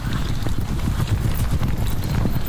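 Horses' hooves clop in a dense, continuous run of many hoofbeats over a constant low rumble. The sound stays loud and steady throughout, with no clear pauses.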